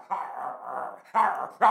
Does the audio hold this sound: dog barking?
yes